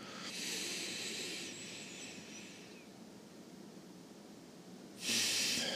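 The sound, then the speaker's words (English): Deep, slow breathing during a warm-up before pickleball. A soft, airy inhale rushes for about a second and fades, then after a quiet pause another breathy exhale swells near the end. Both are faint and unvoiced. “Breath number one, breathe in. And breathe out gently.”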